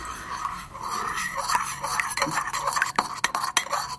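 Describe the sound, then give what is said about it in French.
A utensil stirs vinaigrette in a bowl, mixing three spoonfuls of olive oil with lemon juice and pomegranate molasses. Soft steady scraping and swishing runs throughout, with a few sharp clinks against the bowl toward the end. “Quand tout ça est bien homogène, on va rajouter les 3 cuillères d'huile d'olive. Et on remélange encore une fois pour que ça se dilue parfaitement.”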